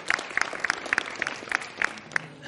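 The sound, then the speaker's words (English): A round of applause from a group: sharp, bright handclaps in a fairly regular rhythm, moderately loud and continuing for the whole stretch. “Give him a round of applause, guys.”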